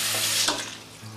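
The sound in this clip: Running tap water streams over plucked poultry being rinsed clean, a steady, fairly loud hiss of splashing water that fills the short moment without pause.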